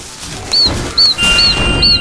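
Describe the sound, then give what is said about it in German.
A loud bird calling: four short, high, whistled chirps repeated at an even pace over a steady background hiss. “Aua, das ist lauter Vogel.”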